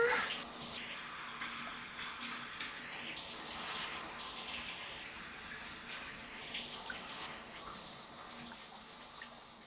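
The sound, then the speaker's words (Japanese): Shower water running steadily: a continuous bright, hissing rush that holds even for about ten seconds with only slight fluctuations. “そろそろ流すね。 シャワー、シャワー、シャワー”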